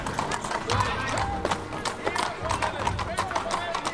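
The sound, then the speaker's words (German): Hooves of horses carrying armed riders clattering past through a town street near a market: rapid, uneven clip-clop strikes, fairly loud, with voices heard over the hoofbeats. “Da, die Reiter sind bewaffnet. Die sind in die Nebengasse geritten.”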